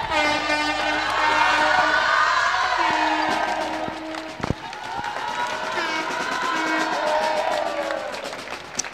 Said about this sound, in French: Vous devez certainement entendre derrière nous l'expression de joie, la communion entre le public et ses joueuses.